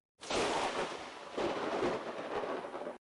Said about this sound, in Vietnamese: Đúng lúc này, một tia chớp lóe lên trong mây đen, tiếng sấm rền biến thành tiếng sấm vang rồi, cực kỳ đáng sợ.